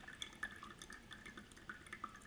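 Water dripping out of a LifeStraw filter straw: many small, faint, irregular drips and trickles, each a soft high patter in a quick uneven rhythm.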